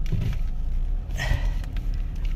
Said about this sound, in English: Sorry, I'm driving, so I have to pay attention here.